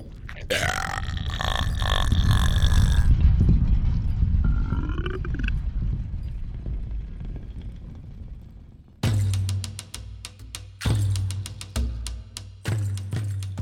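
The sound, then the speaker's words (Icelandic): Loud, drawn-out human-voiced burping, performed as trolls belching after a feast of steaks and lutefisk in the Dovre mountains, with long rumbling belches that fade before a different rhythmic clattering passage takes over. “Tröllin slöfruðu í sig steikur og lútfisk, smjöttuðu hátt og ropuðu svo undir tók í Dofrafjöllum.”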